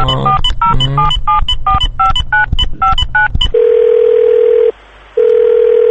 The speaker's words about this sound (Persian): خب بزنین یه شماره دیگه بگیرم ببینم دیگه با کی میشه حرف زد.